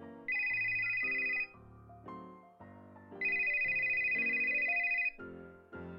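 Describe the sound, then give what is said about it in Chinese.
A mobile phone ringtone for an incoming call plays a melodic electronic tune. The same phrase is heard twice, each time a long sustained high note followed by shorter notes stepping lower, at a fairly soft level with no voices. “Work from home 的 Emma 接起闺蜜打来的电话。”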